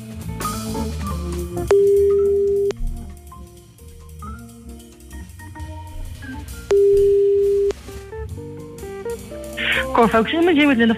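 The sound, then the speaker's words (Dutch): Two steady telephone ringback tones sound on an outgoing call. Each is a flat, mid-pitched tone lasting about a second, with a pause of several seconds between them, over continuous background music. “En wij gaan bellen met Linda. Zeker. Nu.”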